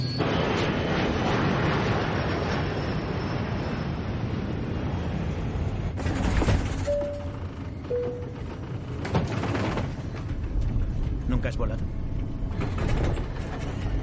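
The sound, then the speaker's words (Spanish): A plane takes off in an action thriller film scene, with a steady broad engine roar that shifts and swells partway through, sounding dense and continuous throughout. “Los matones suben al avión, apagan las luces de cabina y despegan.”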